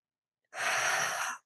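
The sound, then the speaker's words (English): A single deep breath taken during a guided breathing exercise, a breathy rush under a second long that starts abruptly after silence and then cuts off. “So taking some really deep breaths to ignite that fire and take back your power. A few more breaths. And one more.”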